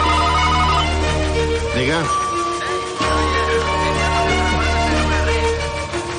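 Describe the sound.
A telephone rings at a shop by a pier: repeated electronic ringing tones layered within dense, loud music and other busy sound.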